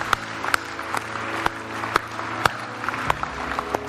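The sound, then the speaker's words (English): A church audience claps to welcome new members. Crisp, rhythmic claps land roughly twice a second over sustained musical tones, at moderate loudness. “Can we put our hands together and welcome new brothers and sisters today?”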